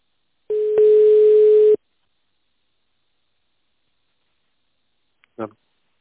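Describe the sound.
Telephone line tone while a call is transferred: a single steady mid-pitched tone lasting just over a second, followed by a long silence and a brief snippet of voice at the very end.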